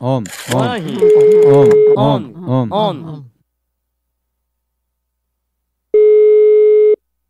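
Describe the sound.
Telephone ringback tone on an outgoing call: a steady, one-second electronic tone sounds once during talk, then again alone after a short silence.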